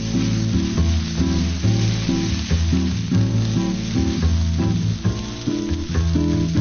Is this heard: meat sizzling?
yes